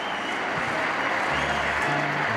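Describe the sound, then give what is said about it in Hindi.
Loud crowd applause welcomes a performer back onto the stage: a thick, continuous roar of many hands clapping, steady in level from start to finish. “हो जाइए तैयार एक बार फिर जोरदार तालियों से स्वागत करने के लिए, अमिताभ बच्चन फिर एक बार।”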